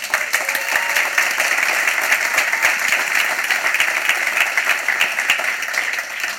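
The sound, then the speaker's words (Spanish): Audience applause at a church gathering after the offering total is announced: loud, dense clapping from many hands that stays steady and continuous throughout, with no pause or build. “Yo creo que merece un aplauso.”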